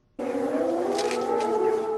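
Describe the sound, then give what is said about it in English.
A civil defense air raid siren in Ukraine starts abruptly and holds a loud, steady wailing tone with layered harmonics and a slight waver in pitch throughout. “Sirens have howled across Ukraine almost every day for a year, indicating a strike may land somewhere, and it would be a good idea to go inside, or underground if possible.”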